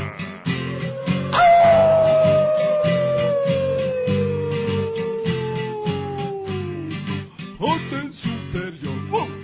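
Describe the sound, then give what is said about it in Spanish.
Wolf-like howling from a group: a long, loud wail that slides steadily downward in pitch for several seconds over a rhythmic music bed, with the music continuing alone afterward. “Ahora sí, atención, todas las tropas. ¡Aullar!”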